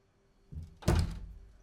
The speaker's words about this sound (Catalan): Empeny la porta, de vidres en quadrícula amb els travessers verd fosc, i entra mirant a terra.